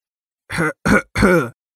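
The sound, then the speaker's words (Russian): A man clears his throat in three short, rough, throaty bursts separated by brief pauses, fairly loud and alone with no other sound. “Откашлялся я и понял, что горло совершенно не болит.”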